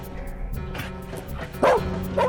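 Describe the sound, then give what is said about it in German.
A chained dog at a house barking: softer whining and rustling noises, then a couple of loud, abrupt barks near the end. “Es muss was passiert sein. Der Hund.”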